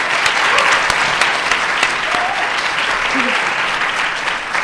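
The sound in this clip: Audience applause welcoming a speaker at a student leadership conference, dense steady clapping throughout with some voices mixed in.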